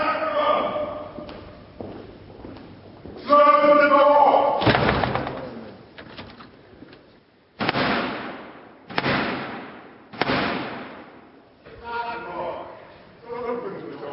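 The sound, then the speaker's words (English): At Britain's Parliament, a heavy door is slammed shut during the ceremonial opening, then Black Rod knocks three times, each knock loud and ringing with a long decay, with talking before and after. “Now, that was the sound of the 350-year-old tradition of the King's Messenger, the Black Rod, knocking to gain entry after having Parliament's door slammed in his face.”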